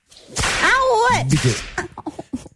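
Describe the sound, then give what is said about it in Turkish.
A whip lash snaps sharply with a swishing edge. A strained, wavering voice rings over it, and a few short knocks and taps follow. “bir kere kırbaçlıyorum.”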